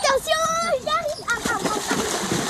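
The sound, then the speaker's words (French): Children play and splash in lake water, with bright splashes mixed with their high-pitched voices and short shouts. “À côté des enfants qui s'amusent dans l'eau”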